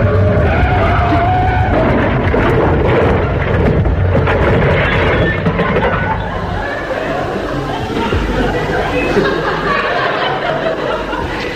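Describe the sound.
A car brakes hard and skids, producing a loud, sustained scrape of tires that runs through the whole clip, with people talking and laughing over it.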